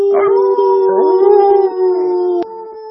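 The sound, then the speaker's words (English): People howling together in imitation of a wolf pack, several voices holding long, wavering tones that overlap for about two and a half seconds before most cut off and one howl lingers. “Let's give the Truth a Truth Pack howl.”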